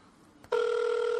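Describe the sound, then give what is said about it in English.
Ringback tone of an outgoing telephone call: after a brief click, a steady electronic tone begins partway in and holds loud and unbroken to the end. “Let's call them up, see what's hopefully happening. It doesn't just go to voicemail.”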